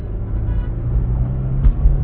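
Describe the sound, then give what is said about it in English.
Low, steady engine and road rumble from inside a car driving through heavy traffic, continuous for about two seconds with a couple of brief heavier thumps near the end; no talking. “I'm, I'm driving and it's, uh, there's a lot of traffic.”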